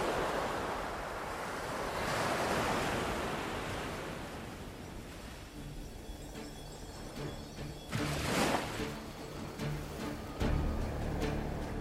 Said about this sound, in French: perdue dans l'immensité de l'océan.